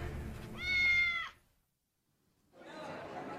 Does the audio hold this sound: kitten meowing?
yes